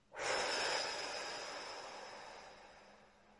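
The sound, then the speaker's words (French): A single forceful exhale through the mouth, taken as part of a guided relaxation breathing exercise. The breathy rush starts abruptly and fades slowly over about three seconds, heard alone. “Vous inspirez profondément pour vous dynamiser, puis vous soufflez fortement par la bouche.”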